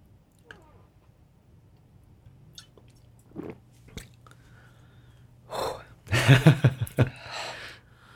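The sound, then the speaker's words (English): Someone takes a big swig of Kraken rum. Faint mouth and swallowing noises come first, then a louder burst of gasping, rasping breaths and throaty sounds near the end. “I don't drink rum much, so I took a big drink.”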